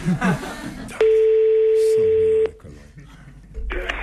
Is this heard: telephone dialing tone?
yes